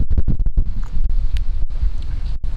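Wind buffets a camera microphone outdoors on a chilly day, a rough low rumble with several gusty surges and brief drops, and no voices.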